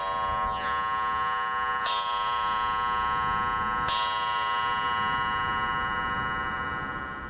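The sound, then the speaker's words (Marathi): A clock striking the hour, a chiming clock that strikes one more than the true hour. Resonant strikes with long ringing tones sound over a steady background, spaced about two seconds apart. “तीन वाजलेत. अरे घड्याळाची गंमतच आहे बघ माझ्या. तीन टोले पडले म्हणजे दोन वाजलेत असं समजायचं.”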